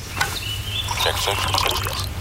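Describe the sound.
Coffee being poured into a cup: a steady, bubbling trickle of liquid runs through the whole clip over a low background hum.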